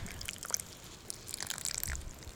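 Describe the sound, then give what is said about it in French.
Water trickles and drips faintly onto a freshly planted strawberry plant pressed into garden soil, an irregular, soft pattering that is quiet throughout. “Il faut appuyer comme ça. Et puis après... arroser.”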